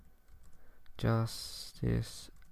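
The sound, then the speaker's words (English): Quick typing on a computer keyboard, a run of light clicks with two brief voiced sounds breaking in over the keys. “you have to bear with me because I do have to type these things in real time”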